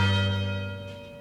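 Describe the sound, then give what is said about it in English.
University tower chimes ringing, a single sustained bell tone with many steady overtones, strongest at the start and slowly fading, heard alone without voices. “The University Tower chimes ring in another session of Ask the Professor”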